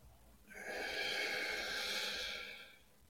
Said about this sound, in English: Hold for four. Inhale. Hold for four. Exhale.